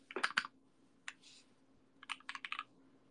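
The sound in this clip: Keystrokes on a computer keyboard come in quick clusters of clicks: a burst at the start, a single tap with a short hiss midway, then a denser run of typing near the end. There is no talk.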